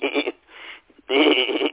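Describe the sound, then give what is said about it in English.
A voice imitates a telephone being dialed, an old-style dial rather than push buttons: two buzzy, nasal vocal bursts separated by a short near-silent gap, the second longer and louder. “Nobody dials in anymore. you can't dial. That's that thing that goes,”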